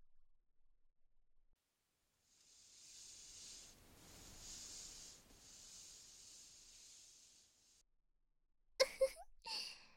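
A zipper is pulled down slowly, giving a quiet, hissing rasp in a few drawn-out strokes with brief pauses between them.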